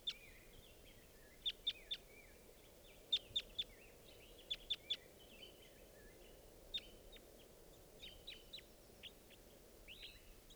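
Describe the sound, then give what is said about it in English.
Wild birds call while flying about: faint clusters of short, high chirps and tweets, quick repeated notes separated by gaps, over a quiet background. “It's flying around. Wild bird.”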